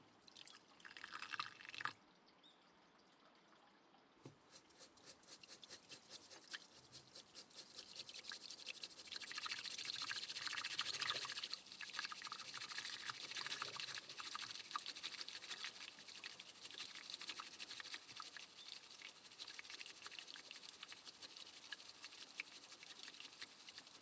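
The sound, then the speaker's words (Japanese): Hot water poured into a pot to brew tea: after a brief opening sound, a continuous splashing trickle runs for about twenty seconds, swelling toward the middle and staying fairly even afterward, with no voices. “ではお湯を注いで、”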